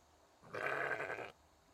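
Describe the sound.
A single sheep bleat, a wavering nasal cry lasting under a second, clear against a quiet background.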